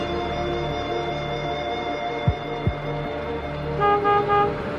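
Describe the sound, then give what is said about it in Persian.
Car horns honking from several cars stopped behind a garbage truck in a narrow alley. A sustained horn tone runs over engine rumble, two sharp thuds come midway, and a louder burst of honking comes at the end. “چند تا ماشین دیگه وایسادن. بوق میزنن.”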